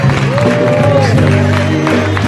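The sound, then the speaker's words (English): A worship audience gives a big round of hand clapping, with many claps forming a loud, dense patter while voices whoop and cheer over it. “Give him a big hand clap.”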